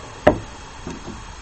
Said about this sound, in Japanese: せっかくやから金具の音取っとこうか。金具ね、こんな音がする、回転式の引き出しの取っ手ですね。